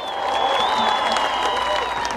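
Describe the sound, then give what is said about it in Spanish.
Audience applause at a stage show: dense, steady clapping from a crowd throughout, with a sustained tonal sound running over it. “aplauso para ustedes.”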